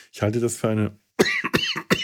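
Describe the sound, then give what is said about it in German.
A man coughs a few times in hoarse, voiced bursts. Two drawn-out throaty coughs come first, then a few shorter, sharper ones after a brief pause. “Oh mein Gott, dieser Husten.”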